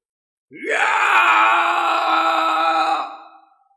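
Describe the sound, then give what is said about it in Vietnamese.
A man's loud roar, the battle cry of an old sect master charging a powerful enemy, rises sharply at the start into one sustained harsh vocal blast lasting about three seconds before tailing off. “Một tiếng gào to”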